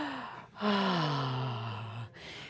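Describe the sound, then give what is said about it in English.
A deep breath is drawn in by a group in a studio, then released as a long, audible exhale that slides down in pitch like a relaxed sigh. “Nice and loud so those of you in the studio and so Jeff can hear you go... Yes, Jeff, isn't that calming? Take the good deep breath.”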